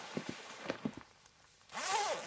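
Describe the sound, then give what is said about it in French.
A coat zipper is pulled up in one quick rasping zip near the end, preceded by a few soft clicks and taps. “laisse-moi remonter la fermeture éclair de ton manteau.”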